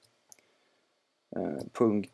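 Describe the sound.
A few sharp, faint mouse clicks while selecting text on a computer, followed by a person talking.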